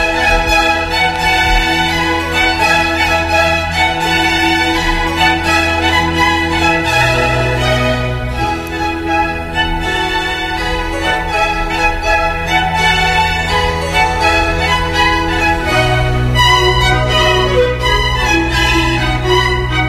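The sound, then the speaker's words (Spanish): Orchestral music from the lively third movement, an allegro, of a Baroque concerto depicting spring, playing loud and continuous with busy melodic lines over a steady bass. “Por eso vamos a escuchar el tercer movimiento, que recuerda mucho al primero, al conocido, y también es un alegro y suena así de bien.”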